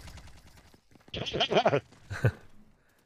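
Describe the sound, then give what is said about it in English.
Video-game gunfire from a weapon the player calls weak, heard as a short rattling burst of shots followed a moment later by one more sharp report, fairly quiet overall. “How does somebody kill me for 135%? Ran out of ammo. This gun I got is garbage. It doesn't kill anything.”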